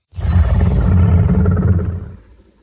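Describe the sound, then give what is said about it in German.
A deep dinosaur roar effect from the film Jurassic Jelena: one loud, growling roar that bursts in suddenly, stays strong for nearly two seconds and then dies away. “Und zwar haben wir ja in den Jurassic Jelena-Film diese Dinosaurier-Geräusche eingebaut. Und das würde ich dir auch einfach nochmal vorspielen, dass du so ein bisschen weißt, worum es geht. Und zwar dieses Geräusch hier.”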